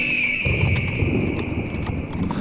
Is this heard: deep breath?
no